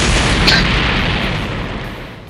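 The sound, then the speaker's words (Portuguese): A cartoon explosion erupts as a costume catches fire and two fighters blow up, a loud broad roaring boom that rumbles on and slowly fades away. “O, a roupa de Mekazawa começa a pegar fogo e os dois explodem.”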